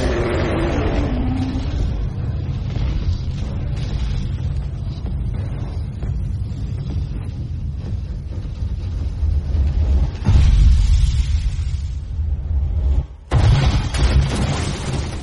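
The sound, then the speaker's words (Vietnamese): A huge explosion with fire: a heavy, sustained roaring rumble fills the whole stretch, swelling louder past the middle before dipping briefly and returning, with no voices. “Tiếng nổ khủng khiếp vang lên, lửa mịt trời.”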